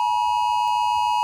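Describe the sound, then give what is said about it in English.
A mobile phone emergency alert test tone from Australia's national warning system, a steady, loud, piercing electronic beep made of pure sustained tones that holds unbroken for the whole moment. “every mobile phone in Australia will blast a 10-second alarm. Now, we won't play all of it. We don't want to alarm you while you're driving. No. But it sounds a little like this.”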